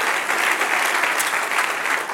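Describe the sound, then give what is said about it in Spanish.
Audience applause at a religious gathering, a dense, even burst of many hands clapping that holds steady for about two seconds without a break. “Denle un aplauso a Cristo.”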